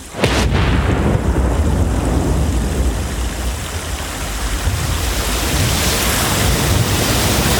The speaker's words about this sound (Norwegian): Danskehæren hører nok på et tidspunkt lyden fra flommen som kommer rasende